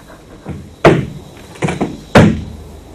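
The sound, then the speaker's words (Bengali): Door sounds as a door is opened: a few sharp, hard thuds and knocks stand out among softer clatter and rattling. “দরজাটা খুলে দাও তুমি”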